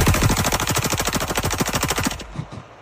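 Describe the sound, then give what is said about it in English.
Rapid automatic gunfire as a gun is fired at cases of Bud Light beer: a loud, dense burst of many shots in quick succession that stops abruptly after about two seconds. “Shoots a bunch of Bud Light cases.”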